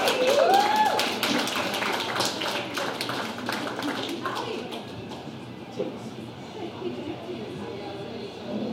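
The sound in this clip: Knocks and taps on a rickety table, a quick scatter of sharp, dry hits in the opening seconds that thin out, with a brief whistling tone near the start and a murmur continuing underneath.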